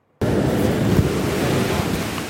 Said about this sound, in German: Hunderte Badefreudige, die sich durch den wilden Eisbach im Englischen Garten in München treiben lassen.